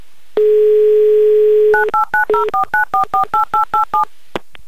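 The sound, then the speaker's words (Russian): A telephone number being dialed: a steady dial tone, then a quick, evenly spaced string of keypad beeps, ending with a soft click. “А поэтому набираю ваш номер и надеюсь на ваш ответ.”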